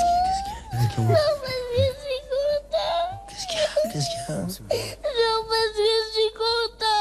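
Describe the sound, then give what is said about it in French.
A child crying, with high, wavering whimpers and sobs in uneven bursts, the tearful voice rising and dipping in pitch and breaking off between shaky breaths. “Tu pleures parce que tu es content ?”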